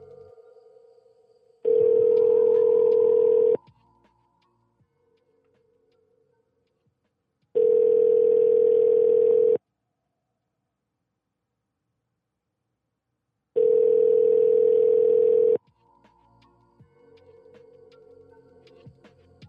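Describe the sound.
A telephone call rings through before being forwarded to voicemail. It gives three identical, steady mid-pitched ringback tones, each about two seconds long, separated by even gaps of near silence.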